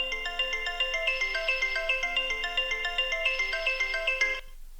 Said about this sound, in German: aber natürlich rufen wir jetzt auch mal an, denn Anrufe annehmen ist ja auch eine wichtige Sache. Schauen wir, was es da macht. So, jetzt rufen wir bei mir zu Hause an.